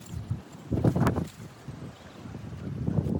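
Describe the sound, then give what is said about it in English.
Strong wind buffets a microphone outdoors near a farmhouse, out in the open beyond the shelter of a wood. It makes a continuous, loud, low rumble with uneven gusts rising and falling, and no voices. “Come with me while I show you how bad this wind can really get.”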